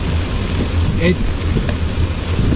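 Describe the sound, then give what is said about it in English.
Rain coming down in a steady, dense hiss over a low rumble, holding an even loudness from start to finish. “Yeah, you can hear the rain coming down.”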